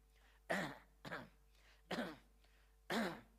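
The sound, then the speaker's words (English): A man clearing his throat, with several rough, raspy bursts separated by short pauses, fairly faint overall. “he's clearing his throat because he's buying time”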